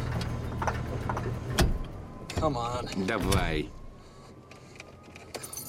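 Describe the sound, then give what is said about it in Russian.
A car engine stalling while a man drives, its low rumbling idle running for over a second before cutting out with a thump, leaving a quieter stretch where a brief voice is heard. “Мужчина едет в машине, и он глохнет.”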